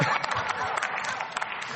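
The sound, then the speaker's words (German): Applause in a parliamentary debate: a brief, even patter of many hands clapping, moderately loud, with no clear voices standing out. “Ja, das ist mein Applaus wert, würde ich sagen.”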